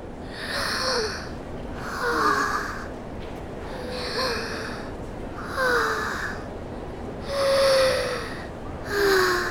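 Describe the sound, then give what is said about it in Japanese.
Deep breaths drawn in a slow, regular rhythm, several breathy bursts rising and falling at moderate volume, some with a faint voiced edge. “とにかく落ち着いて、まずは深呼吸。せーの。”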